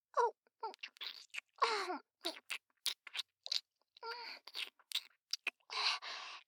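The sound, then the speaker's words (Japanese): Wet licking and slurping mouth sounds as someone laps up something sweet and melting. Many short, uneven bursts, with occasional low moaning hums between them. “うまい！なんだこれ、血よりうまいかもしれない。甘くてとろけるような。全部舐めるぞ。”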